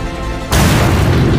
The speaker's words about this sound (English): Recovering quickly, I threw a smoke bomb to cover my escape from the creature.